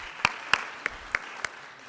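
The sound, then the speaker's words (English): Five faint, sparse hand claps for internship committee members who rise or wave. The sharp claps are spaced at a fairly even, slow rhythm over a quiet background. “If you are a member of the internship committee, would you please rise or wave so we can applaud to you?”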